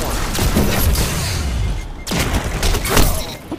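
Golden gun gunfire in a multiplayer shooter video game: a few loud, sharp blasts cut through a dense, noisy mix of game action.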